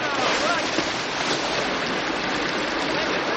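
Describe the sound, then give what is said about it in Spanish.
Water spills over a mud dam as a lake on the African savanna floods, a loud, continuous rushing and churning roar with no break. “El agua rebasa el dique y el lago comienza a desbordarse.”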